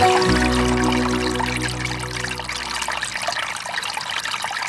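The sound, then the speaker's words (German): Babbling of a peaceful little stream: a steady, continuous trickle and splash of water that runs evenly throughout with no pause. “Das hier, was ihr hört, ist das Plätschern eines friedlichen Flüsschen.”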